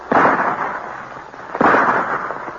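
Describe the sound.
Two loud gunshots fired by a sergeant at a vicious bear in a dramatized scene, each a sharp crack followed by a long, decaying rumble.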